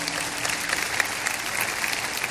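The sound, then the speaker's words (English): A church audience claps hands together during a morning service, a dense, continuous patter of many hands at steady moderate loudness with crowd murmur mixed in and no clear single beat. “Come on, why don't you clap your hands for God this morning?”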